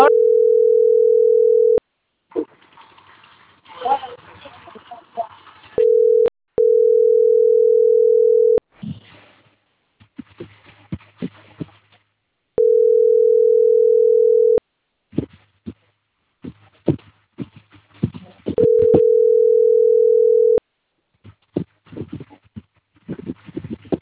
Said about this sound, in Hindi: भैया, फोन ना उठा रहे। ये घंटी कितने की जाते हैं?